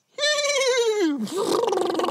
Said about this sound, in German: Ein Pferd. Ein Cowboy reitet auf einem Pferd.